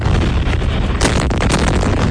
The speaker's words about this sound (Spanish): Son los potentes ataques que ha lanzado Estados Unidos contra Irán por tercera noche consecutiva, por orden del presidente Donald Trump